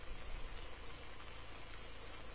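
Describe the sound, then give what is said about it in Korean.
Steady heavy rain falls in South Gyeongsang, Korea, after a night of lighter showers, a dense, continuous hiss with no separate drops standing out, holding an even level throughout. “어젯밤부터 약한 빗줄기가 내리기 시작해 지금은 제법 강한 빗방울이 꾸준히 떨어지고 있습니다.”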